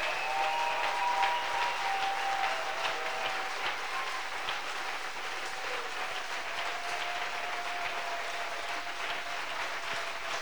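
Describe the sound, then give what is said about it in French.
A church audience claps in worship, with dense, steady applause sustained without a break for the whole stretch. “acclame le Seigneur jusqu'à ce que tu aies mal aux mains. On dit, you feel pain in your hands.”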